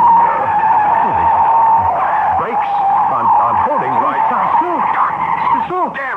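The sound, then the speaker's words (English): A car skids as its handbrake fails to hold, a loud, sustained screech running throughout while voices shout over it. “The handbrake. Good Lord, the handbrake won't hold.”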